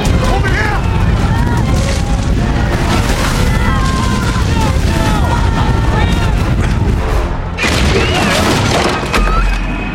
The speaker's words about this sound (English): The door explodes open and the red-haired witch stalks into the house.